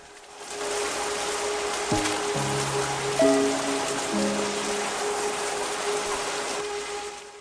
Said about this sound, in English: staggers over to the doorway and hobbles out into the torrential rain.